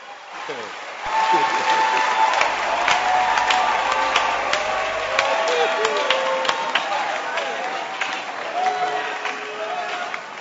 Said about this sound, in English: Clap your hands for them.